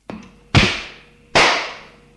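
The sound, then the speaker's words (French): A slap to the face in a dramatic scene: a faint tap, then two loud, crisp cracks about a second apart, each trailing off in a fading ring. “Il la gifle.”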